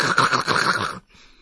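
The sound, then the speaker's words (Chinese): A voice imitates galloping horse hoofbeats on a desolate road of loose rocks and long grass. A rapid, clipped run of throaty beats lasts about a second, then gives way to a fainter, breathy tail. “忽听见一阵马蹄声急，咔咔咔咔咔”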